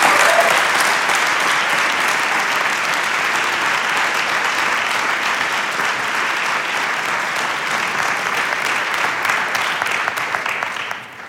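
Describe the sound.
An audience applauds to welcome a speaker at a seminary gathering in Dallas: dense, steady clapping that holds for about eleven seconds before tapering off at the end.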